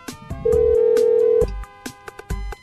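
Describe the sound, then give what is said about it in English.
A telephone dialing the corporate office, with a steady electronic tone lasting about a second amid short clicks and brief beeps. “It sounds like it's we're dialing the corporate office.”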